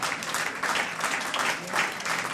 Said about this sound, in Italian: riaccogliamo con un bel applauso Filippo Valli, Yvon Lavalli,